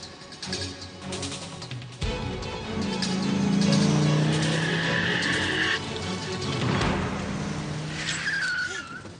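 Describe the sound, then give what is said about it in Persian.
A car drives with a loud, continuous engine roar that swells and eases, joined by sustained high tyre squeals as it skids. “ماشینه هنوز دنباله بونه ها.”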